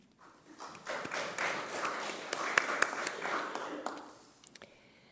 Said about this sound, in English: And I think that's worthy of giving yourself a clap.